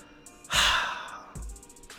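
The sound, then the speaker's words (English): A deep breath, heard as a long, loud, breathy rush followed by a second, shorter and softer breath, with no talking. “Taking a deep breath because I know I need it.”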